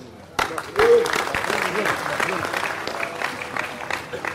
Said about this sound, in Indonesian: untuk tepuk tangan untuk